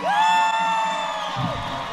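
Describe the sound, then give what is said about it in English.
Crowd cheering with a long, loud whoop as state teams parade in at a sporting event's opening ceremony, the raised voice holding steady for over a second above the continuous roar of the audience. “Ah, huge cheers.”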